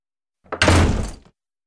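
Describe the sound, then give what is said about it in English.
A door slamming: one heavy, loud slam with a sharp onset and a brief rumbling tail that dies out quickly, heard alone against silence. “Slam.”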